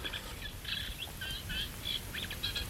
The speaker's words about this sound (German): Sie hören, wie der Gesang außerordentlich wechselnd und verschiedenartig ist, wie die einzelnen Tiere auch verschieden singen. Und ich muss immer sagen, gerade dieser Vogelgesang passt so sehr in diese etwas herbe,